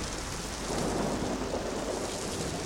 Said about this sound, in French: Je vais attendre la fin de cette tempête, même si je dois y passer la nuit.